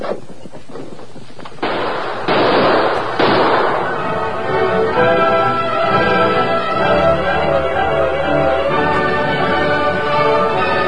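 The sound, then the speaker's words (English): Gunfire cracks in a rifle fight among rocks. A quick cluster of sharp reports is followed by a few louder, booming bursts in the first seconds, and then a dense, sustained roar carries on. “Keep up that gunfire.”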